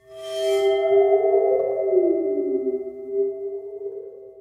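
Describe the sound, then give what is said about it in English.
Eerie ringing tone of a water phone, a metal instrument with water at its base: a loud, sustained pitch rich in overtones that wavers and sags slightly before steadying, with a brief bright shimmer at the start. “It's a water phone. Water phone, yes. Which is like this metal thing that has some water at the bottom of it. That's why it kind of goes wobble, wobble, wobble.”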